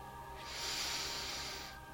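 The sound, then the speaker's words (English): A deep, slow inhaled breath, taken as part of a guided relaxation exercise, sounds as a soft, airy hiss that swells for about a second and then eases off, alone and fairly quiet. “One, take in a deep cleansing breath.”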